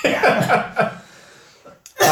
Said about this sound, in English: been coughing all day, bless you